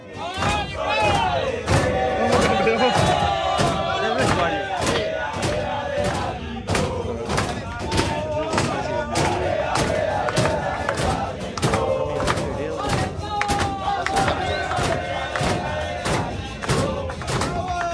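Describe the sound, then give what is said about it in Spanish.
Paraguayan football fans in Peru celebrate during a penalty shootout, a loud mass of voices chanting together over steady, regular drum-like thumps that keep a driving rhythm throughout. “Hay un video de paraguayos en Perú festejando, o sea, durante los penales.”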